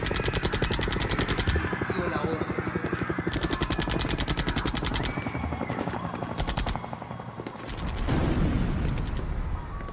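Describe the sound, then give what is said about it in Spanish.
Gunfire as police open fire on Indigenous protesters blocking a highway near Bagua Grande: dense, rapid bursts of shots run loud and nearly continuous, dip briefly, then resume. “A las 5 de la mañana, cientos de efectivos de la policía llegan a donde los indígenas están reunidos y empiezan a disparar.”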